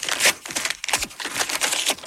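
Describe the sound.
Paper crinkling and tearing as a letter is opened: rapid, irregular crackling rustles of fairly quiet paper throughout, with no talk.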